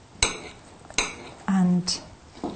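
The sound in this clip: Knife and utensils clink against a dish as fruit flesh is cut out in a kitchen: a few sharp, bright clinks spaced apart, with a short, steady, low drone between them.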